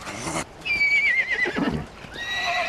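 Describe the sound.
A young horse whinnying: a loud, high, shaky neigh that slides downward, followed a moment later by a second whinny, with a burst of rough noise at the start.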